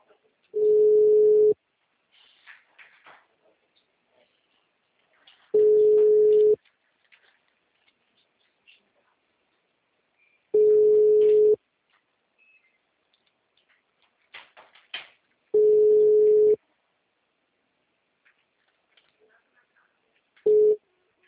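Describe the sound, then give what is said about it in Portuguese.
A telephone line tone after a dropped call: five steady, mid-pitched beeps, each about a second long, evenly spaced by several seconds of near silence with faint clicks. The last beep is cut short. “Alexandre aqui, a ligação caiu? Caiu a ligação.”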